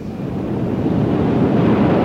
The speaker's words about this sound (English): It's the tide! It comes in faster than an express train.